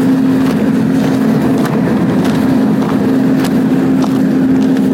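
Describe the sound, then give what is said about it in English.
A big generator runs with a loud, constant drone, a steady low-pitched hum holding at one pitch throughout and a few faint clicks over the unchanging engine noise. “Yeah, big generator.”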